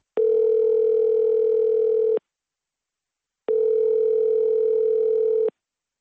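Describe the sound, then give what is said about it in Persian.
Telephone line tone as an outgoing call is placed: two identical steady, buzzy tones, each lasting about two seconds, separated by a gap of silence just over a second long. No voices are heard. “ما به وی زنگ زدیم و صحبت تلفنی را ثبت کردیم.”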